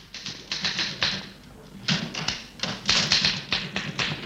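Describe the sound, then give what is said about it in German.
Typewriter keys clack as a news message is typed in a radio station's newsroom, a rapid, irregular stream of sharp taps and thuds. They come in bursts, with a short pause near the middle. “Und hier wird augenblicklich eine Nachricht geschrieben, die dann wenige Minuten später per Fernschreiber nach Berlin weitergeleitet wird in die zentrale Nachrichtenredaktion.”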